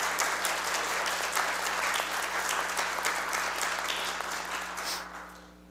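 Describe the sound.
A church audience applauds to welcome a new bass choral scholar. Dense, even clapping holds steady for several seconds, then thins and fades away at the end.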